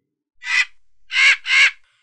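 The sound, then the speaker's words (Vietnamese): Harsh, crow-like cries of red monster birds as a sound effect: three loud, raspy caws, one alone and then a quick pair, with no voices. “Quái điểu màu đỏ kêu lên vẻ hưng phấn”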